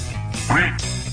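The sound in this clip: A duck loose around a booth quacks, one short nasal call rising briefly over a steady low hum.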